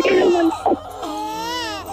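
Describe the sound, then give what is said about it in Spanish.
A newborn baby girl cries during a birth. The cry is loud and wavering, with a strained, breaking quality and a short gap near the middle before the wail resumes. “¿ese es el llanto del niño? Sí, está. ¿Es el llanto de la niña?”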